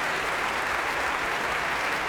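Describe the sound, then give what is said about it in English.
Huge applause from a Proms audience for a mezzo-soprano, a thick, even wash of many hands clapping that stays level across the short stretch. “Huge applause there for the mezzo-soprano, Yekaterina Gubanova.”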